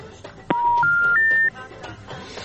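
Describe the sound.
Telephone dialing tones: three steady beeps in a row, each a step higher in pitch than the one before, heard over a noisy background.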